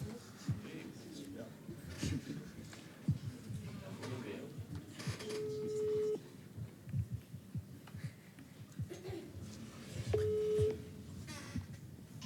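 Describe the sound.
A telephone ringback tone while a listener is called live, two steady mid-pitched tones each lasting under a second, sounding over people talking.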